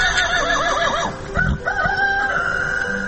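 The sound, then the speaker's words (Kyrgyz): Horses from a herd grazing on a high mountain pasture neigh, giving a few wavering, high-pitched whinnies that rise and fall in quick succession. “Чайыттай ачык күнкү теребелде үйүр жылкы жай оттойт.”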